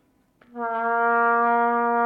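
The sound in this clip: A cornet plays its written low C, concert B-flat, as one steady sustained note. A brief click comes just before the note enters, then the tone stays even and full, with no voices.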